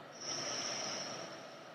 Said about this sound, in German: Schließe rechts, öffne links, atme aus atme über links ein.